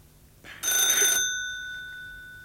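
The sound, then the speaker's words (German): A single telephone ring: a short, bright metallic burst that stops abruptly, leaving a clear ringing tone that fades away slowly afterward. “Das Telefon.”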